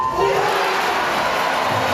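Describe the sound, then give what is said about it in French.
A packed crowd roars and cheers at the Olympic aquatic centre during a swimming 4 x 200 m relay. The sound is a loud, continuous wall of voices with no break from start to end. “Le public hurle le prénom de Léon Marchand et quand il conclut en tête le premier relais, c'est l'hystérie.”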